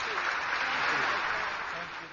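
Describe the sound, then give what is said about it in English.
Applause from the audience at the Rainbow PUSH Coalition Convention in Chicago for former Secretary of State Hillary Clinton, a steady, full rush of clapping that holds evenly, then eases slightly toward the end. “Give the secretary a round of applause, please. Show her how much you love her.”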